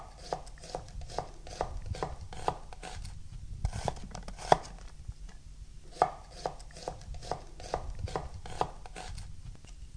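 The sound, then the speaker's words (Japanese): A knife thinly slicing half an onion laid cut side down, working from one end: many quick, evenly spaced taps of the blade on a cutting board, with no talking. “玉ねぎです。2分の1個断面を下にしていただいて、端からごく薄切りにしていきます。”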